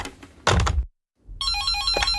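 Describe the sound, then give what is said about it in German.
A telephone rings with a loud, steady electronic warbling tone. It starts after a low thud and a brief silence, and no voices are heard. “Wer ist am Telefon? Hallo?”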